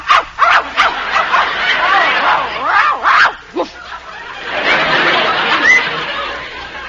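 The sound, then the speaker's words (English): A hidden dog gives a few short, sharp barks at the start, followed by people talking and chuckling. “Did you hear what I heard? I'm not sure. What did you hear? It's a dog. She's got a dog in there.”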